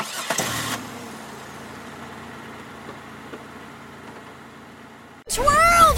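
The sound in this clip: A car engine starting and running, a brief louder burst at the start giving way to a low, steady rumble that continues for several seconds.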